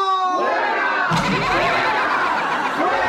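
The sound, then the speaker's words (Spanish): An audience cheers and laughs in a loud, continuous mass of voices that takes over after a brief tonal opening and holds steady to the end. “¡Ahí está el público!”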